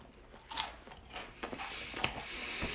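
Someone eats snacks, a few faint crunching bites and small crackles scattered over a quiet background.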